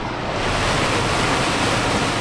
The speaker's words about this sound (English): This pumping station sucks 800 gallons out of the river per second, diverting it to irrigation canals.